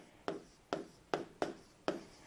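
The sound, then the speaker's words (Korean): Five faint, separate pen strokes write English words by hand in lowercase letters. Each is a brief scratch, spaced roughly evenly apart, with quiet gaps between them. “소문자로 나와 있으니까, 네, 소문자로 써볼게요.”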